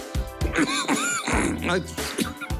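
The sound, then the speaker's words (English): A man forcefully clears phlegm from his throat in a run of harsh, guttural hacking bursts mixed with voiced groaning, loud and continuous throughout. “Mike Leach goes to absolute war with the phlegm in his throat”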